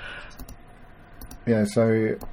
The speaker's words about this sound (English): So I'm just clicking through some pictures here.